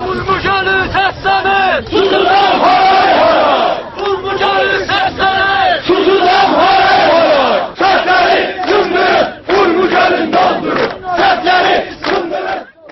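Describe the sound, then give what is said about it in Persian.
Crowd chanting protest slogans at a rally in northwest Iran over the drying of Lake Urmia, loud and rhythmic, with many voices shouting short repeated phrases in unison and brief pauses between chants. “در جریان تجمع‌های روز 13 فروردین تجمع کنندگان شعار می‌دادند:”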